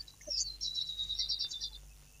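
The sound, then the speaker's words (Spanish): Small birds chirp in the background at a house, with rapid high twittering in a few quick bursts. They stay faint over a steady low hum. “Nosotros escuchamos pajaritos en el fondo de tu casa.”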